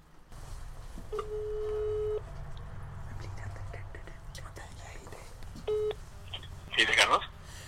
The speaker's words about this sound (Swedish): Men jag tycker ändå att vi ska slå en signal till honom